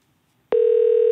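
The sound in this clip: A steady telephone tone, like the dial tone heard as a call is placed, starts suddenly after half a second of near silence. It holds at one constant mid pitch, fairly loud and unbroken to the end.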